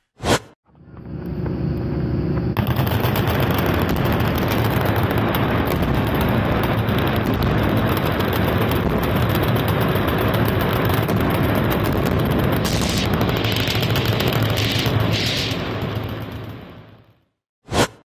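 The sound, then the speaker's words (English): Gunfire and explosions at a gun range in Kentucky form a loud, dense, continuous roar of blasts that runs for about fifteen seconds, starting abruptly and fading out at the end. “gunfire at explosives of some sort. Almost as if it was done for some sort of, I don't know, gun show or something in Kentucky.”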